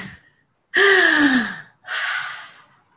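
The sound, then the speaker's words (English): A deep breath taken together during a group call: a long, loud, rushing inhale, then after a short gap a slower, fading exhale. “So we take a deep breath.”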